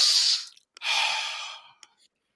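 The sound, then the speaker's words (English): A deep breath taken by a person: a breathy rush of air, then after a short pause a longer, loud, hissing exhale that slowly fades, with a faint click near the end. “I just want everybody just to take a deep breath wherever you are around the world.”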